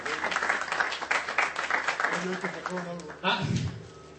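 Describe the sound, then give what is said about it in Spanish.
An audience applauds guests at the end of a live talk show, a dense patter of many hands clapping at moderate loudness, with voices speaking over and after it. “me gustaría pedir un aplauso a Chicken Master, que no tiene por qué hacer esto. También, obviamente, un aplauso para Carlos, que nos acompaña por segunda vez”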